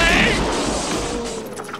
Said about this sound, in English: I'll be very ready to make my bomb go bye-bye in 3, 2...